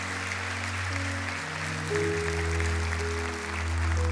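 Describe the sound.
A church audience applauds in welcome with steady, dense clapping, while sustained low musical tones play underneath.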